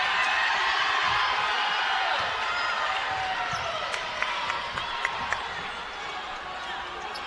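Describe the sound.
A basketball dribbled on the court during a women's game, with a few sharp bounces standing out from steady crowd noise while a commentator talks over the play.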